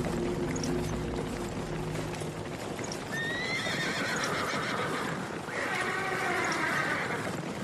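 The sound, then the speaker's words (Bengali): Hooves clip-clop steadily as a horse-drawn coach sets off again along a forest road, with a continuous rolling rumble underneath and a horse whinnying partway through, all fairly faint. “জন্তুগুলো পথ ছেড়ে পাশের জঙ্গলে মিলিয়ে গেলে coachman আবার গাড়ি ছেড়ে দিল।”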